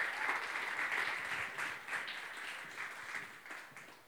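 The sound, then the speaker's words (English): A church audience applauds as a guest speaker is welcomed, a dense but fairly faint patter of clapping that holds steady and gradually thins out. “let's put our hands together and give Josh Young a Transit family welcome.”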